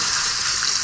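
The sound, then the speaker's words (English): Fresh onions sizzle as they hit a hot wok, a brief, bright, steady hiss of frying with no other sounds. “Or fresh onions just as they hit the wok.”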